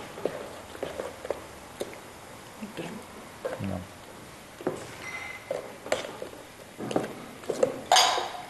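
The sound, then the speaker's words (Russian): A spoon stirs a sugared mixture in a bowl, giving many irregular clinks and scrapes of metal against the dish, with a few sharper knocks and a louder clatter near the end. “А сахар? Добавляем сахар. Вот, теперь мы все это перемешиваем.”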